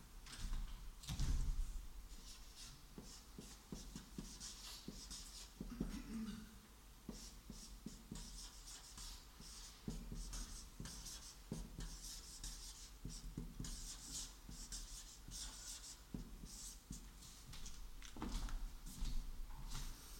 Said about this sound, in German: Hier vorne zu sprechen und so ist kein Problem, aber da zu schreiben ist 8. Klasse Schule, wirklich. Furchtbar.